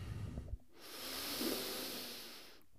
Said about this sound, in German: Oh, lass uns zusammen noch einen tiefen Atemzug nehmen.